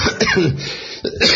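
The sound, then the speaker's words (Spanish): Rough, loud coughing from someone who says they are unwell: a few harsh bursts, then a short dip before a final burst, with no talking. “Esta tos era buena, era de las de calidad.”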